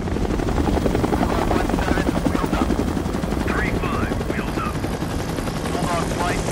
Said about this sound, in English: Taking off, the choppers kick up a thick cloud of dust.